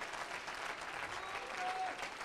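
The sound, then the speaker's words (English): An audience claps hands at a worship service: dense, steady applause from many people, faint and continuous, with no clear speech over it. “Do that again. Clap your hands.”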